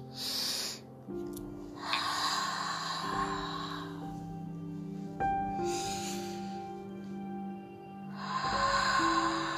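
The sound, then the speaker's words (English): Slow, deep breaths in and out during a guided meditation. A few long, soft airy breaths rise and fade over a quiet, sustained musical drone. “close your eyes and take a deep breath. Inhale and exhale.”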